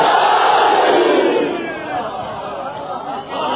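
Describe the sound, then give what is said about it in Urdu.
An audience shouts the Naara-e-Haidari slogan together at a religious gathering. The massed shout is loudest over the first second and a half, then drops to a lower, sustained crowd roar with a brief dip near the end. “عالم کے ماننے والے بیٹھے ہیں، نعرہ حیدری۔”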